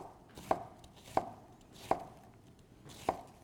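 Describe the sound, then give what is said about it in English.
Knife chopping onions on a cutting board while cooking: four sharp, crisp strikes at uneven intervals, each a quick woody knock, separated by quiet stretches with no talk. “And then if you have a piece that's a little somewhat larger than the other, just run a knife back through.”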